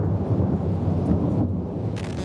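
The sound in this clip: Thunder from a lightning strike rolls as a deep, continuous rumble with a hiss of rain underneath. It stays fairly loud and unbroken for the full two seconds, with no voices.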